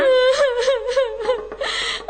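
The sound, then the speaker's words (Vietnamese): A young girl's voice cries in drawn-out, wavering wails and whimpers, a high, tonal sob repeated several times in short bursts, with no clear words. “Kìa Trắng, làm sao em khóc?”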